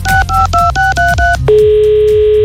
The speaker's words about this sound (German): Und den werden wir jetzt mal anrufen